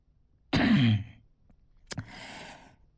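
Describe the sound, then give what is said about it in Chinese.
A man gives a single light cough, a short breathy burst with a falling voiced edge. A soft click and a drawn-out exhale follow, with no speech. “李金来轻咳了一声”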